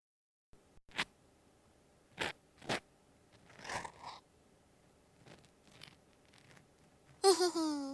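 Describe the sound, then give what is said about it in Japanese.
Soft, faint scratching and crackling of an ear pick cleaning an ear in close-up ASMR, with several sharp, crisp scrapes at irregular intervals over near silence; a woman's voice briefly begins at the end. “この耳かきプレイ好きかも。”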